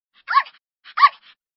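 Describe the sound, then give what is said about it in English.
A puppy barks twice in a grassy garden, each a short, high-pitched yip separated by a brief pause, clear and alone with no voices. “Funny puppy.”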